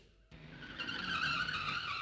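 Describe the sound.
Skid screech used as a comic effect for a galloping horse pulled up to a sudden stop: after a brief quiet start, a high tyre-like squeal rises in and grows louder, holding steady to the end.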